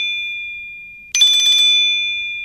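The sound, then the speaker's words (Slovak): A mobile phone ringing: a steady, high electronic tone, then a dense, bright, buzzing ring that starts suddenly midway and holds to the end. “Periférnym pohľadom som videla, že volá neznáme číslo.”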